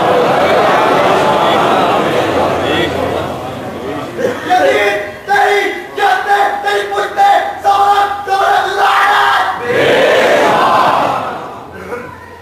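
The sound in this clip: A crowd at an Islamic religious gathering chants slogans. Loud massed voices roar at the start, a stretch of rhythmic, shouted chanting follows, and the crowd swells again before fading.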